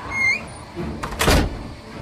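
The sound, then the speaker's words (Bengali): The outer door of a police station slams shut with one loud, heavy thud that rings briefly before dying away. “দড়াম করে হঠাৎ থানার বাইরের দরজাটা আপনা আপনি বন্ধ হয়ে গেল”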